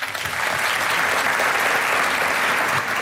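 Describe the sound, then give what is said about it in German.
An audience applauds a band on stage, a thick, steady wash of clapping that stays loud and even throughout without any talk. “Also nochmal einen großen Applaus für die Band Mahoin hier auf der Bühne.”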